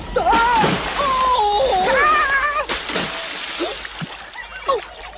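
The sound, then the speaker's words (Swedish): Boys are thrown into a lake, and their plunge brings a sudden crashing splash of water amid wailing, moaning voices that rise and fall in pitch. “I sjön, pojkar! Varsågod, badet är serverat!”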